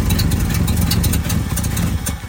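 An engine idles in very cold weather, a steady low rumble laced with rapid mechanical clatter and a slight unevenness, loud and continuous.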